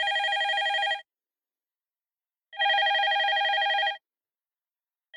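A telephone rings for an incoming caller with two loud electronic ring bursts of about one second each, separated by a pause, and a third ring starting just at the end.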